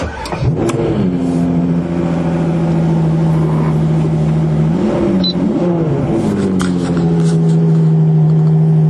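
Loud, sustained engine roar from a 2021 Ferrari 812 GTS convertible sports car while driving. The steady, throaty drone shifts pitch a few times, with no talk over it.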